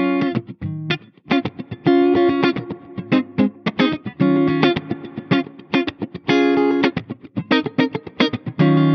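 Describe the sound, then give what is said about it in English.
An electric guitar plays through reverb and delay effects in short, chopped chords and notes with a steady rhythm. Each stab leaves a brief ringing tail, and the guitar sounds fairly loud with nothing else heard. “So basically I'm sending the guitar signal to the reverb and delay. So it means that the tail of that will carry on even if I bring the level back on that.”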